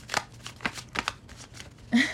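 Tarot cards being shuffled in several quick papery riffles of fairly even loudness, ending in a louder, fuller burst.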